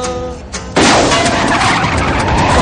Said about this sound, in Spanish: Surge un reventón y el coche se descontrola por unos momentos hasta que Martin consigue detenerlo.